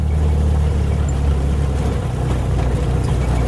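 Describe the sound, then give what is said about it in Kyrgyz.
Engine of an old Russian UAZ off-road vehicle used on unpaved mountain roads, a steady, loud, low rumbling drone with no talk. “Жарым кылым жашап койгон мындай орустун уаздары Арслан бапта табылгыс автоуна, өмүрү асфальт көрбөгөн тоо жолдоруна ушундай машина гана чыдайт.”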